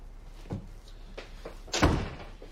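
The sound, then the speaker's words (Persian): A door is pushed shut in a Persian-dubbed drama, landing as one firm, low thud after a few softer knocks and shuffles. “در رو ببند.”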